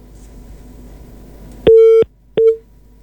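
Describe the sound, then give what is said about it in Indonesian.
Telephone busy tone after a dropped call: two bursts of a steady mid-pitched beep, the second cut short, following a low line hum with no talk. “Ya, nampaknya terputus dua-duanya. Kami akan coba hubungi kembali Pak Ade Mafrudin dan juga Pak Farid Aliawi.”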